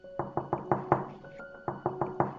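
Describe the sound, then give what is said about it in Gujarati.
Knuckles rap on a neighbour's door during a quiet lockdown: a quick run of about five firm knocks, a short pause, then another rapid run of knocks, with a faint steady hum underneath. “મેં સામેવાળાનો દરવાજો ખટખટાવ્યો.”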